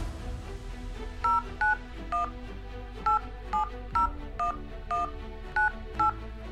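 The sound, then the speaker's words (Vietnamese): A phone number being dialed on a touch-tone telephone: ten short two-tone beeps at uneven intervals, clear above a low, steady background hum. “Bây giờ em gọi điện cho bạn thân của nó”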